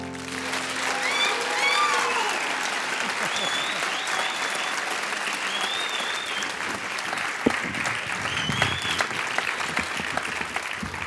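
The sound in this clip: Warm audience applause welcoming an Achievement Award winner: sustained, dense clapping for about eleven seconds with a few whistles early on, then continuing steadily with scattered louder claps.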